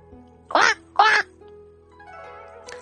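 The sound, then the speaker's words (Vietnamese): Ducks quacking: two loud, rasping quacks in quick succession, followed by a quieter, drawn-out tonal sound over a low, steady hum. “Lăng Phong nghe thấy tiếng gà vịt ở đâu đó”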